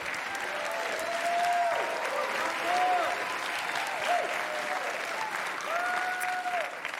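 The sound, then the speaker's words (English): Church audience applauding, clapping hands to welcome a youth pastor: steady, dense applause that fills the whole stretch at an even loudness, with a voice speaking over the clapping. “would you put your hands together? Come on, welcome the youth pastor of your location.”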